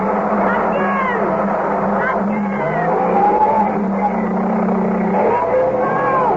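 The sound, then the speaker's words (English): Car wheels spin in sand as a stuck car fails to get traction. A steady, loud engine drone runs throughout, with intermittent high whining squeals from the tires. “Give it more! Oh, God, the wheels are spinning.”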